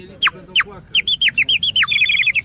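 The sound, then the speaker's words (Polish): Clay bird whistle toys sing at a traditional Easter fair in Kraków: two separate downward chirps, then a run of quicker falling chirps that ends in a rapid, bright warbling trill. “Zabawki ruchome, zabawki śpiewające, jak ptaszki gliniane.”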